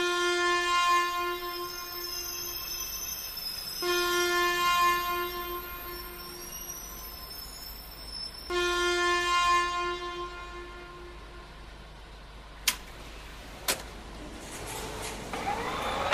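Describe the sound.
An express train's horn sounds in a few long, sustained, harmonically rich blasts over a steady rumble, followed by two sharp metallic clanks as the train departs.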